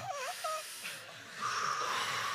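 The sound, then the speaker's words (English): An audience inhales deeply together on cue, a broad, breathy hiss that swells after a short vocal sound at the start and holds steady to the end. “Here's what I want everybody in the room to do. You ready? Är du klar här i rummet? Take a breath.”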